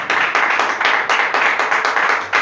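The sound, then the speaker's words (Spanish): Applause from a church audience: dense, steady clapping with a regular pulsing rhythm that keeps its level throughout, with no voices. “Recibe este aplauso. Recibe este aplauso, Señor.”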